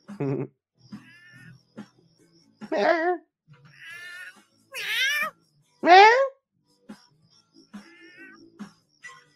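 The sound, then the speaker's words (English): Cat meowing: a series of drawn-out, wavering meows and moaning caterwauls with shifting pitch, some short and some long, separated by brief gaps and ranging from faint to fairly loud. “That's the cat moaning”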